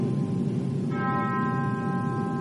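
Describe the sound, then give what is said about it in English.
Church bell at Ebenezer Baptist Church in Atlanta tolls in memorial for John Lewis. A bell strike rings out partway through and its bright overtones sustain over a steady, noisy background. “Those bells at Ebenezer Baptist Church rang 80 times earlier this morning, marking every year of Lewis's life.”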